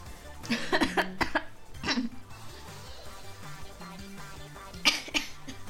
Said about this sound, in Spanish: Finge tener tos.